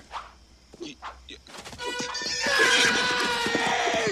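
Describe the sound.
A horse ridden across a campus lawn whinnies over a quick run of hoofbeats that builds louder, with brief voices early on.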